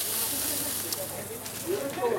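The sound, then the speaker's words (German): Steady sizzling hiss of grated potato rösti frying in oil with a little seasoning, a continuous crackle under a voice talking. “Geraffelte Kartoffeln, bisschen Öl, bisschen Gewürz. Und werden angebraten, 5 Minuten.”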